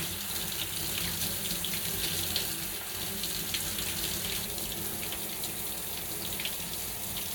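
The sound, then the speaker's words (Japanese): Tap water runs steadily for rinsing, a continuous soft hiss of splashing water, fairly faint and unbroken throughout, with no voices. “まずはこっち側を流していきます。”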